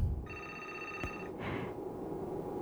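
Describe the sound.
A telephone rings for an incoming call, giving one quiet electronic ring of about a second with a bright, steady, buzzy tone, followed by a brief soft hiss against low background noise.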